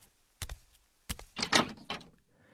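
A door opening in a home at about half past four in the morning, on the way to the bathroom: two sharp clicks, then a few louder rustling, scraping bursts, fairly faint with no talk.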